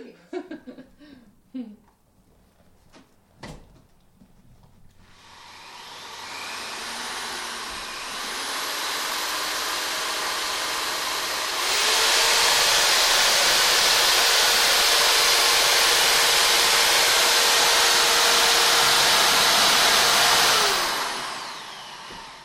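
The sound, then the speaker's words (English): Bradshaw cord maker machine running: after a few brief knocks, a loud, steady whirring hiss starts up, grows louder partway through, holds there for several seconds, then cuts off. “I actually got Linda to turn it on so I could get a bit of audio. Now, I'll warn you, it's a bit loud, so you might want to take a moment and turn your volume down. It's pretty loud.”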